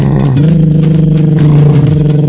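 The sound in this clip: A voice imitates a motor with a lip trill: a loud, continuous, fluttering buzz at a low, fairly steady pitch, lasting just over two seconds with no pause.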